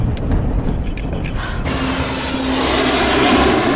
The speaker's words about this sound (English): The plane flies through clouds. It shakes.